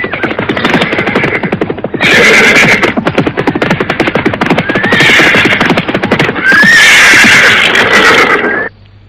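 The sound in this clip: Ridden horses neigh loudly a few times over a fast, steady clatter of hooves as their riders come to a halt at the foot of a hill. The hoofbeats cut off abruptly at the end.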